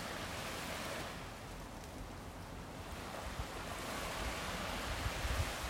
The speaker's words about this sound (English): Sometimes the time between waves coming in and rolling out.